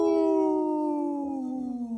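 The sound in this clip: A human voice howling like a wolf: one long, smooth, tonal howl that slowly slides downward in pitch over about two seconds, alone without other sounds.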